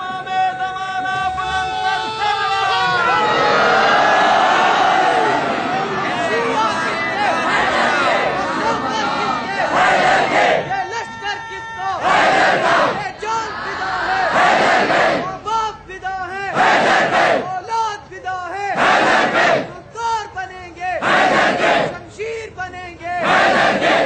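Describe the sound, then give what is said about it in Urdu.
A large crowd chants a slogan at a rally. Loud, sustained shouting gives way to many rhythmic, forceful bursts of massed voices. “آپ خواتین کا نعرہ نہ چرائیں, اپنا نعرہ لگائیں.”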